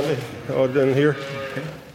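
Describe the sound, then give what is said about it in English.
Young dairy calves, about a dozen aged four to twelve weeks, call in a barn: a drawn-out low bawl with a wavering tone rises over a steady murmur, and voices can be heard around it. “We're coming into a barn here. There's about a dozen or so young cows here.”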